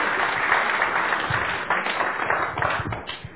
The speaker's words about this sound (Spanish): ¿Le podemos dar un fuerte aplauso al Señor?